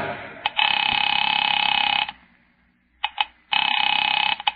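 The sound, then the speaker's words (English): A telephone bell rings on a call being placed. A loud sustained electric ring of about one and a half seconds is followed by a pause, a brief double burst, then another long ring. “Picking it up quietly, I dialed my daughter's number, Alec Bartlett's wife.”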